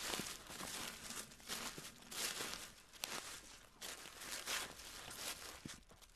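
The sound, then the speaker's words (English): Footsteps crunch through the woods over dry forest floor: many soft, rhythmic steps with crinkling litter underfoot, faint and unbroken by talk. “But we keep walking deeper into the woods.”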